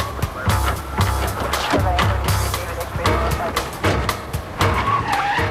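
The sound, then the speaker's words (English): Tires skid as an unmarked police car drives away, a dense, loud rush of engine and screeching rubber that runs steadily with a few sharper bursts throughout. “George and Clayton get into the car and drive away”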